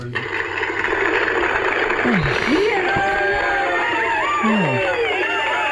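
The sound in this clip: A toy plays a recorded studio-audience cheer: steady crowd-like cheering and whooping with rising and falling voice tones runs loudly through the whole stretch.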